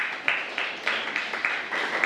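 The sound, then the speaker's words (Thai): Students in a Thai science class clap for a classmate who answered correctly, a series of evenly spaced unison claps on a steady beat, each one a short sharp burst, moderately loud with no talk over it. “ถูกต้องครับปรบมือให้เพื่อนครับนักเรียน”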